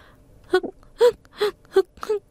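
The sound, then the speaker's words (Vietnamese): A person cries in a few short, wavering sobs and moaning wails, separated by breathy pauses, fairly faint and with no other sound around them. “Sao tự nhiên lại khóc?”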